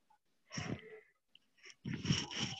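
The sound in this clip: Faint, airy human breathing near a microphone: a few breaths, a soft rushing burst, a short pause, then a longer and fuller breath.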